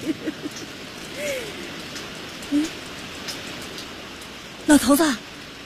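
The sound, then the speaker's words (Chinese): Steady rain falling, a continuous soft hiss with a few faint voice-like sounds and a short louder burst near the end. “老头子下雨了，下雨了。”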